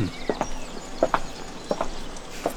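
A woman's footsteps as she walks away: a few faint, evenly spaced steps arriving in close pairs, sharp little taps over a quiet background hiss.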